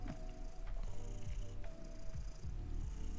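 A cat purring: a steady, low, continuous rumble with a gentle pulsing rhythm, heard alone throughout.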